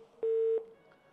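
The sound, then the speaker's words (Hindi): A phone-in caller's line dropping during a health call-in programme: a single short, steady electronic beep rings out clearly over a faint line hiss, then fades back to quiet. “ये call हमारे पास drop हो गई।”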